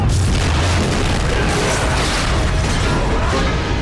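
Tripod machine exploding in a loud, dense roar of noise sustained across the whole clip, with mechanical clanking and rattling mixed into the blast.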